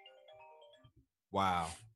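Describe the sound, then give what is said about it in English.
A cell phone ringtone plays a short tonal melody of steady, shifting notes. It stops, and a loud voice exclamation follows. “We couldn't even silence the cell phones for the pod, man.”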